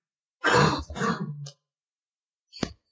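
A rough, throaty cough from someone at a tabletop role-playing game session: a longer rasping burst that breaks into a second push, a pause, then one short sharp cough, loud and alone.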